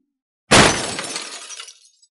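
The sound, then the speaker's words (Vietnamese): A teacup hurled onto the ground inside a tent smashes and shatters, with fragments flying. It lands as one sharp, loud crash, followed by a bright glassy tinkle that fades over about a second, with no voices. “Chén trà tựa như một tia chớp bị hất văng lên trên mặt đất, nhất thời vỡ tan ra, mảnh vỡ bắn tung ra bốn phía, bắn cả vào lều vải.”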